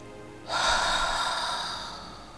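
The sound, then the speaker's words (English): One deep breath in through the nose and out through the mouth, heard as a single airy rush that starts abruptly and then slowly fades, with no voices. “Deep breath in through your nose and out through your mouth.”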